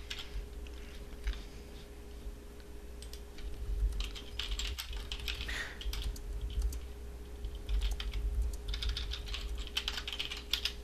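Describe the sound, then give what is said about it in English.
Typing on a computer keyboard during a chat: a long run of quick, light key clicks in an uneven rhythm over a steady low hum, with no talking. “we're just typing back and forth in the Zoom chat here”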